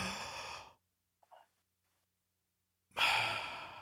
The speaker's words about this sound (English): Just take a big deep breath. Take a big deep breath and hold it for 5 seconds.